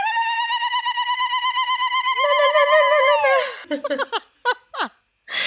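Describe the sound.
A single voice ululates in the trilling festive cry typical of Arabic weddings: a rapid pulsing trill for about two seconds, then a held higher tone that slides downward and breaks into a few short yelps.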